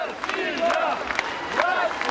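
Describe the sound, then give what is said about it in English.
A crowd of about 2,000 residents in the partly ruined South Ossetian capital, Tskhinvali, shouts and cheers as a leader emerges. Many voices yell in loud, uneven waves. “When separatist President Eduard Kokoiti emerged, the crowd clapped and shouted, "Russia!"”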